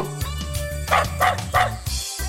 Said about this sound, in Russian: Рычит бульдог на таксика.